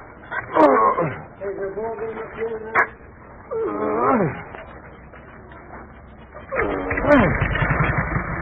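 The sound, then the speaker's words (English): An early automobile engine cranked by hand and catching, ending in a loud, fast, low chugging putter that runs to the end, after several bursts of voiced, strained sounds and people talking. “while I give the engine a twist”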